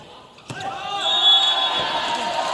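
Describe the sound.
A single sharp hit of a float serve in a volleyball match, followed by loud, sustained crowd noise that swells and holds to the end.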